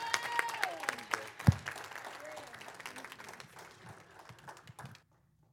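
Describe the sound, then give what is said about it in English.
Applause rises from a standing church audience welcoming a pastor to the stage. The clapping is dense and steady, with a sharp thump early on, and gradually thins before stopping abruptly near the end. “So come on, y'all, stand to y'all's feet. Y'all give a warm welcome to Pastor Eugene Chimwaza.”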